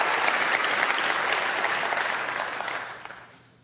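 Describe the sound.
Church audience at Bethel Church applauding visiting guests, a dense, steady patter of many hands clapping that thins and fades away at the end.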